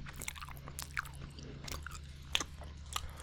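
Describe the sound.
Faint, wet chewing of sticky, spicy black-licorice-flavoured candy with a liquid gush filling, slow mastication broken by a few sharp crunchy clicks, with no talking.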